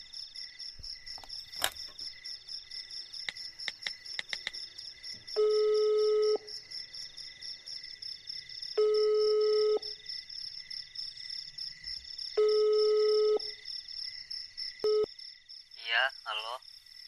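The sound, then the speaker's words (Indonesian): Ringback tones of a phone call being placed sound three times, each a steady tone about a second long at even intervals, over a constant high chorus of crickets. “aku mau nelpon Aldo.”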